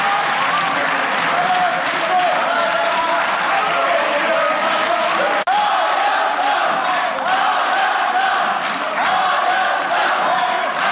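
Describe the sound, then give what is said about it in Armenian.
Loud, sustained applause fills a parliament hall, dense, continuous clapping from a large gathering with crowd noise mixed in, holding steady throughout. “Ծափահարությունների պատճառով դուք հնարավորություն չունեցաք պատասխանել հարցին։”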